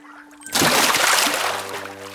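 A sudden water splash as someone goes swimming, breaking in abruptly and settling into a loud, steady splashing and trickling wash that continues to the end.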